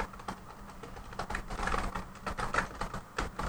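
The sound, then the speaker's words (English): Typing on a computer keyboard: many quick, light key clicks patter in an irregular stream, faint and steady throughout, with no voices over them. “I don't mind the keyboard. I think it sounds fun.”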